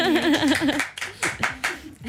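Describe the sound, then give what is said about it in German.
Scattered hand claps from an audience follow a brief stretch of talk, arriving as a few separate short bursts rather than a continuous roar. “Applaus auf jeden Fall an euch alle.”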